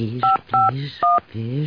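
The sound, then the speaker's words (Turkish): Touch-tone beeps as a telephone number is dialed in a radio drama: three short, clear dual-pitch tones, each steady and even, with a voice heard between them. “Az önce aradığımda bir telefon numarası var. Dur, şunu bir arayayım.”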